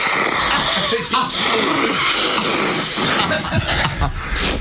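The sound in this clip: Ground pepper is snorted up through a rolled-up 2000 banknote: a loud, harsh, raspy rush of air runs almost without a break, broken by a few sharper snorts.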